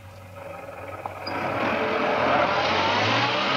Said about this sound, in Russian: Машина отъезжает, девушка смотрит ей вслед.